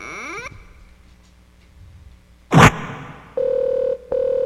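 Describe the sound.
Electronic telephone tones signalling an incoming caller: a sharp burst, then a steady mid-pitched tone that breaks off briefly and resumes, with no talking.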